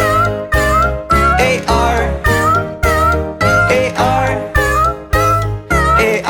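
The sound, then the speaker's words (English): A farmer's cat meows in a children's song, with many rhythmic, sliding meows falling in a regular beat over a steady musical backing. “There was a farmer who had a cat, and Oscar was his name, oh.”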